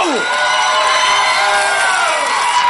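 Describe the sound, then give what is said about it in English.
Audience cheering, whooping and yelling as a standing ovation greets performers at a live show in Chicago, a dense and loud roar that holds steady throughout. “Oh, a standing ovation already. Thank you. Oh, thank you so much.”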